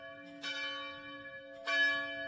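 The legendary cathedral bell in Krakow strikes twice, each blow deep and resonant, with a long, humming sustain that carries on between the strikes.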